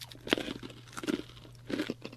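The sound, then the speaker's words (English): Crunching as someone bites and chews seaweed algae chips: three distinct crisp bursts of crackling, with softer chewing between them. “This one tastes a lot more like seaweed, but crunchy seaweed. The protein bites had a stronger flavour to the algae chips.”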